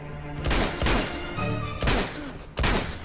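Gunfire in a video game: a few separate, sharp shots spaced across the stretch, with steady tonal game sounds between them.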